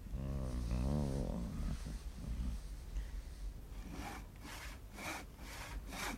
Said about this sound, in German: Er schlängelt sich wie ein Aal zum 1. Pfosten, setzt die Säge an.